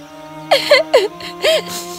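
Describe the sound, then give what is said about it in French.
A young girl crying in a fairy tale, heard as a few short, wavering whimpers and sobs that rise and fall in pitch over steady held background tones. “La reine et la comtesse l'entendirent pleurer et allèrent rapidement la voir.”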